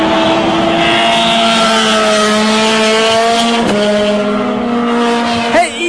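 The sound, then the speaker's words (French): Race cars roaring at a live Grand Prix motor race in Trois-Rivières: a loud, steady, high-revving engine drone with a clear gear change midway and a quick pitch sweep just before the end. “on est en direct du Grand Prix de Trois-Rivières”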